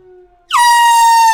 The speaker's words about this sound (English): That's a siren.